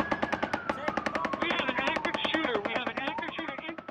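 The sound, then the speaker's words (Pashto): Rapid automatic gunfire during a shooting at an outdoor local music gathering in Las Vegas; steady, fast bursts of sharp cracks run through the whole stretch without pause. “د لاس ویګاس په ښار کې خلک د محلي موسیقي اوریدو ته راټول شي ول چې یو ناڅاپه ډزې وشولې.”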